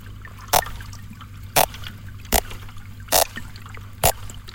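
Underwater recording at rocky drop-offs on the Côte de Granit Rose at Perros: five sharp, evenly spaced clicks over a steady low hum.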